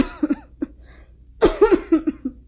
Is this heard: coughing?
yes